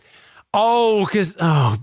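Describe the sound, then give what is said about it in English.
A listener groans at a pun: two drawn-out voiced groans, the first long and wavering, the second shorter with a sinking pitch. “That groan was incredibly satisfying, I just want to say.”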